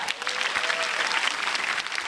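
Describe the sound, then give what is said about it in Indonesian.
An audience claps for a performer on a stage show. The dense, steady applause carries on throughout with some crowd noise mixed in. “Sekali lagi boleh tepuk tangan buat Bintang Timur.”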